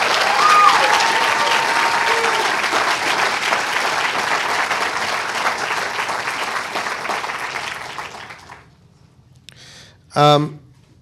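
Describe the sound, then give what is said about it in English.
Applause from a conference audience: dense, steady clapping holds for about eight seconds, then fades out into near silence, followed by a brief spoken remark at the end. “I think we should have a round of applause for”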